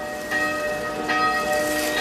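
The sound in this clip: A bell rings out in about three strikes, each blooming into long sustained overlapping tones that hum on between hits, over a steady background hiss.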